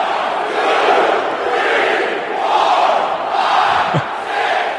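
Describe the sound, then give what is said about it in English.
Suns fans at an NBA playoff Game 1 chant a count in unison to taunt Bucks star Giannis Antetokounmpo during his free throw, a loud, dense crowd roar that swells and dips in a steady rhythm. “They're counting there. They're taunting him for how long it takes him to make a free throw.”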